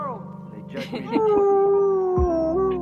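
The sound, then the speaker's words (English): A dog whimpering in a video game: a drawn-out, mid-pitched whine that wavers, holds steady, dips briefly and then lifts again, with a few softer yips and breaths before it. “And then you just hear Fortitude whimpering”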